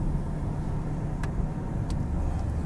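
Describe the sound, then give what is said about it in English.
A car drives along a road, producing a steady low engine and road rumble that holds level throughout, with only a couple of faint ticks above it. “I'm driving. Do you want me to drive off the road?”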